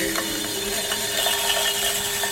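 A trimming tool shaves clay off the base of a piece on a spinning pottery wheel. It makes a steady, continuous whir with a faint scraping texture throughout.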